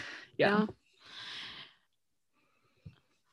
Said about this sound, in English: I got yawned. Sorry. Oh, yeah. We've been so yawny today.